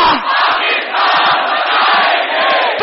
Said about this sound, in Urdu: تو یہ نعرہ بھی ضرور اپنے ملک کو سلامی کے لیے پیش کرنا ہے، پاکستان بنایا تھا، اتنی آہستہ نہیں، پاکستان بنایا تھا،